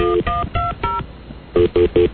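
Telephone keypad tones dialing a speed-dial number: seven short, clear beeps, four in quick succession, then a brief pause and three more, each a steady electronic tone.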